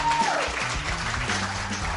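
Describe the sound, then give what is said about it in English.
A round of applause welcomes someone in, a steady, dense wash of clapping that keeps an even level from start to finish without clear breaks. “And, of course, we got to welcome Florida in with a round of applause.”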